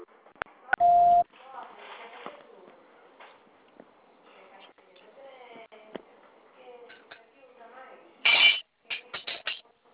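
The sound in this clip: Touch-tone dialing beeps as a telephone call is transferred: one long steady tone near the start, faint talk and clinks in between, then a loud block of tones and a few short, quick beeps near the end.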